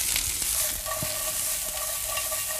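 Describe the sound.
Steady sizzling of ginger, onion, star anise and cinnamon frying in a pan for braised tofu. A continuous bright hiss runs throughout, with a few light knocks of stirring.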